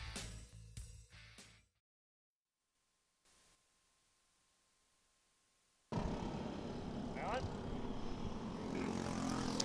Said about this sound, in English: We're sitting trackside, about 30 feet away. Carts blowing past me here right now as the Briggs & Stratton 206 drivers have taken to the